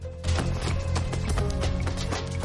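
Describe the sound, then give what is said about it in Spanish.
Running footsteps of someone fleeing along a street in sneakers with untied laces, staged as a chase in a drama: quick, regular, hard footfalls over a dense, continuous background. “Por la calle, Gaby sigue corriendo.”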